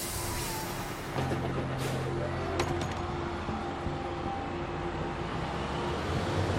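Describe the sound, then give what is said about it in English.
A bus door closes and the bus pulls away. A steady, loud engine rumble runs throughout, a low droning hum joins early on, and a few brief knocks sound over the constant noise. “He goes into the bus. The door closes.”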